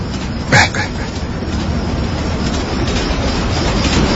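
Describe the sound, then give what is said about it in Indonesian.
Train passing with a loud, continuous rumble and rattle, marked by a sharp brief screech near the start before the steady roar carries on. “Sampai pas setelah kereta itu lewat,”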